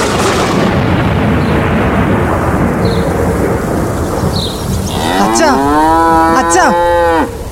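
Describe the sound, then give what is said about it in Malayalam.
Cows low in a cowshed during a storm, the roof blown off by wind and the animals getting wet. A steady roar of rain and wind runs throughout, and a few drawn-out, overlapping moos rise over it near the end. “തൊഴുത്തിൻ്റെ മേൽക്കൂര കാറ്റ് കൊണ്ടുപോയി പശുക്കൾ അമർന്നത് കേൾക്കുന്നില്ലേ അതുങ്ങൾ നനയുന്നുണ്ട്”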